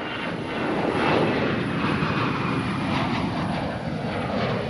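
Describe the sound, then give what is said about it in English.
Aircraft engines roar steadily on the tarmac at Tripoli International Airport, between two Libyan Airlines airplanes. The loud, broad, continuous rumble carries a thin high whine above it and holds nearly constant throughout. “I'm standing here on the tarmac of Tripoli International, in between two Libyan Airlines airplanes.”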